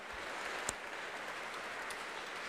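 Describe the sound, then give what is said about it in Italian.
Audience applause in the crowded Basilica of Loreto during a sacred music festival evening: sustained, uniform clapping held at a steady level throughout, with one slightly sharper clap standing out briefly. “E dall'applauso, dalla forza dell'applauso, avete capito che anche questa sera la Basilica di Loreto è gremita in ogni ordine di posto”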